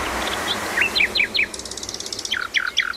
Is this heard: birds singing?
yes